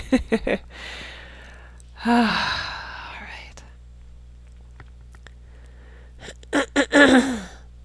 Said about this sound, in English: Okay, nice deep breath. I can't even do it through my nose.